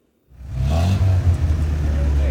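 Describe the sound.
Engine of a newly bought A-tractor, a car converted into a tractor, revving: a loud low engine drone that starts abruptly and holds for about two seconds with small surges and dips in level.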